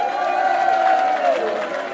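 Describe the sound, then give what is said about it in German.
Crowd noise greeting a performer at an evening show: a steady wash of applause and cheering with a held, whistle-like tone that slides downward partway through. “unser Schlagerwart Kress empfangt ihn mit einem tosenden Applaus”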